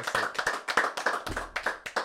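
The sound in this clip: Applause from people in the room celebrating a subscriber milestone: many sharp hand claps in a quick, fairly steady patter, loud and unbroken with no talk over them.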